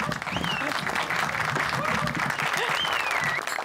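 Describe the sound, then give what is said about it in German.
Applause from an audience runs steady and loud for the whole stretch, with a couple of high whistles gliding above the clapping. “Applaus!”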